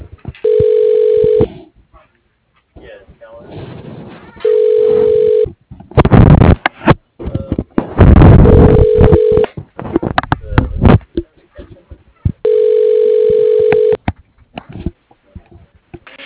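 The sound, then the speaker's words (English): Ringback tones from an office phone system trying an internal extension: four steady, evenly spaced beeps of equal pitch, with short bursts of noise in the gaps between them. “Please wait while I try that extension.”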